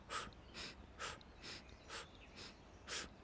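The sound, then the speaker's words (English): Rhythmic breathing from a guided alternating breathing exercise, moving through nose and mouth: seven faint, evenly spaced airy breaths in a steady pulse, with no talking. “And then exhale, 8 parts. Slight pause. Inhale, alternating.”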